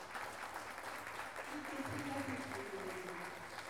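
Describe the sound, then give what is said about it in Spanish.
Audience applause for teachers and children at an intercultural gathering in Salta: a steady, dense clapping that holds at an even level throughout, with a few voices audible in the crowd. “quiero dar un fuerte aplauso a estas maestras, a todos los chicos.”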